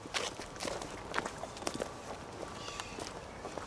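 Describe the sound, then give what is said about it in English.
Quiet footsteps walk through a cemetery toward a gravesite, a steady run of many soft steps over faint background noise. “let's walk over to his gravesite”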